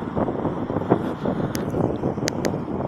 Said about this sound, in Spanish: me voy a acercar hacia aquí, que hace bastante viento, la verdad, es increíble, yo es lo que digo, cada vez que os grabo empieza a soplar el viento.